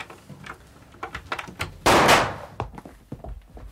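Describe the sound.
A door being unlocked and opened: a run of small clicks and knocks from the lock, then one louder, fuller thunk as the door swings open, followed by a few faint taps.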